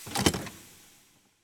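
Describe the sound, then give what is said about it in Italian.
A door being opened: a brief rushing, scraping noise of about half a second that quickly fades away to near silence. “Inutile indugiare oltre. Mario Toso apre la porta.”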